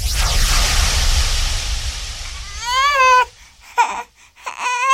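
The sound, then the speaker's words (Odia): A hungry infant cries, with a stretch of broad hissing noise first and then loud, wavering wails broken by short gasps between them. “ଓହୋ, ଚୁପ୍ ହେଇଯା ଧନ, ଚୁପ୍ ହେଇଯା, ଭୋକ ଲାଗିଲାଣି। ଓହୋ, ଚୁପ୍ ହେଇଯା, କାନ୍ଦେ ନା।”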